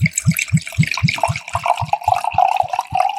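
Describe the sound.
Ice-cold Pinot Grigio white wine is poured from a bottle, giving a rapid, regular run of many low glugs with splashing liquid above them.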